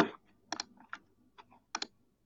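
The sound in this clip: Keys are pressed on a computer keyboard in a sparse, irregular run of sharp clicks. Some come in quick pairs, and they are quiet with silence between them.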